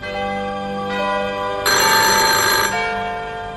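A telephone rings with a steady, loud, multi-tone bell, growing brighter and stronger partway through before settling back, with no voices over it.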